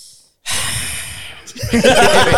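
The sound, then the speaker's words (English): A long, breathy sigh of about a second from someone about to give a negative opinion of a Thor movie, rising out of silence before a voice starts talking. “Straight away with a sigh.”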